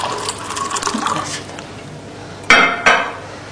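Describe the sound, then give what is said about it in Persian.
Water being poured into a glass: a soft, steady liquid rush comes first, then two sharp, bright clinks of glassware close together near the end. “لیوان دیگه آب بریز مادر”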